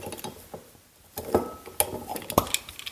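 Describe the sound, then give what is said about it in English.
A bottle of wine being opened in a home kitchen while salmon is prepared for cooking. It gives a few scattered, fairly quiet clicks and glassy clinks at irregular intervals. “That was my wine being opened.”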